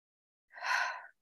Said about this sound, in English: begin by noticing our breath, drawing our breath in through our nose, up into our third eye, down through our throat and into our two lungs.